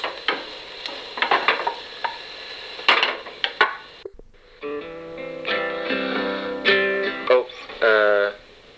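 Clacks and scrapes of a utensil stirring food in a pot while dinner cooks, scattered and uneven over light sizzling, giving way to a steadier tonal passage in the second half.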